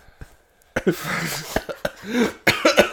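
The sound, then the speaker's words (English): Someone chokes and coughs on a bite of banana in a rapid run of loud, harsh coughs with throaty, rasping catches between the bursts. “Oh, I just choked on the bite.”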